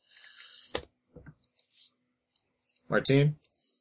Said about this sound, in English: Let me type that in.